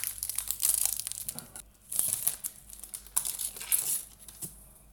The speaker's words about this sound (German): Und wir fangen schon mal an. So. Den Blätterteig aufzureißen.